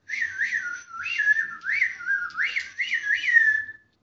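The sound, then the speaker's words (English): A person whistles an imitation of a magpie during a tabletop roleplaying game: warbling notes that swoop up and down in quick phrases, carried continuously at moderate loudness with no talk over it. “I'll make the noise. Okay, then you can get a blue for you. That's right. Mimicking him. Do your best magpie impressioning.”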